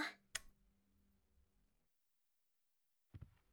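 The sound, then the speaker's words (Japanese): A light switch clicked off in a bedroom at night: one sharp, dry snap stands out above a low background hum, then the room falls almost silent. “じゃあほら、電気消すから先にベッド行って。よし、消すぞ”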